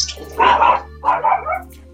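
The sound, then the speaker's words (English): A dog barks in the background with a few rough, loud barks in two clusters over a low, steady hum. “excuse the dog in the background”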